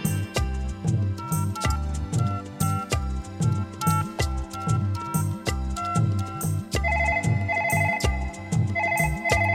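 A musical ringtone plays while a telephone call to Delhi connects. It is a loud, steady melodic loop over a pulsing low beat, with no talk.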